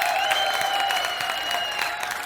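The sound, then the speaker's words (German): Audience applause at a live cooking show event, many hands clapping in a steady, dense stream with sharper individual claps poking through. “bitte einen großen Applaus”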